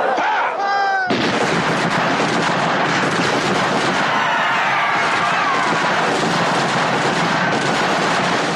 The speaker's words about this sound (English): Jallianwala Bagh, where one British officer leads his platoon into an enclosed garden and opens fire and kills hundreds of people.